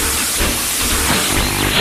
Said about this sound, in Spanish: Cargamos el carbón. Motores a su máxima potencia. Y el tren comienza a avanzar.